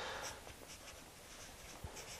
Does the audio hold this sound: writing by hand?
yes